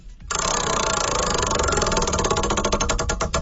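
A prize wheel spins during a game, giving a loud, rapid, steady ticking that grows more distinctly spaced toward the end, heard alone with no talk.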